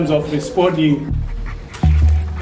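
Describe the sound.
Panting of a tracking dog trained to follow poachers, kept by anti-poaching rangers in a park in Limpopo; quick breathy pants sound while a person talks.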